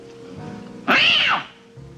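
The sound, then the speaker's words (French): An actor's voiced imitation of a cat's meow in a film scene: one loud, drawn-out meow of about half a second that arches up and back down in pitch over a quiet background. “comme Marlène Dietrich chez Sternberg, Marlon Brando fait très bien Miaou. C'est un extrait d'un tramway nommé Désir.”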